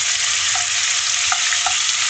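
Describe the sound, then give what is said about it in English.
Bacon sizzles and fries in garlic-infused olive oil in a pan, a loud, steady, crackling hiss with a few small pops, heard on its own without talk. “Cooking up some bacon in the garlic olive oil here.”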